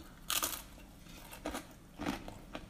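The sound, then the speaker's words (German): Someone chews a mouthful of cinnamon-and-sugar spice mix, producing a few soft, crunchy bursts with pauses between them and no talking. “Ich muss noch aufkauen ich brauche erstmal einen Schluck Wasser.”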